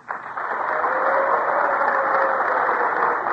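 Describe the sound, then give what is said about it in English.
Sustained applause from a packed house at Town Hall in New York City, greeting an impromptu live music performance; dense, even clapping holds at a steady level for about three seconds without a break. “that sound you just heard was a packed house here in Town Hall in New York City. And those cheers were for the only impromptu music on the air.”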